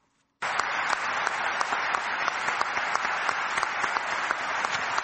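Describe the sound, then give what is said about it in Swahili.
Arab League ministers and diplomats applaud at a meeting in Cairo; the dense, steady clapping starts abruptly after a moment of silence and continues evenly. “Mawaziri na wanadiplomasia wa Umoja wa Nchi za Kiarabu walikusanyika Cairo, walipiga makofi pale waziri wa masuala ya nchi za nje wa Umoja wa Falme za Kiarabu Sheikh Abdullah bin Zayed alipoishambulia Iran.”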